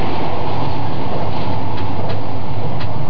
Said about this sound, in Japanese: 風が窓を叩く音とともに、列車が新しい風景の中に放り出される。